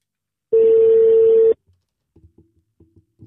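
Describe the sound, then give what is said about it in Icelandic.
An outgoing phone call rings once, giving a steady, mid-pitched tone about one second long, followed by a few faint, scattered clicks. “Ég ætla samt að pröfa að hringja.”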